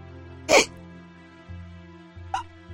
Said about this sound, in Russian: он начал часто икать от страха